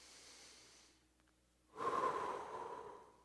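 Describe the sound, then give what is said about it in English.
A deep breath drawn in through the nose and let out through the mouth: a faint, soft inhale, a short pause, then a louder, airy exhale that fades slowly. “I want you to take a deep breath in through your nose and out through your mouth. Let's do this together.”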